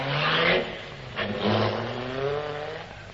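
A car engine revs as the car drives off, its pitch rising as it accelerates, alone with no voices.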